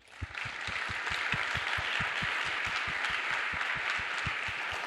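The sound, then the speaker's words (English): An audience in a lecture theatre applauds as panelists come onto the stage. Steady, even clapping fills all five seconds, over a run of regular low thumps. “please do join me in welcoming all the panelists to the stage.”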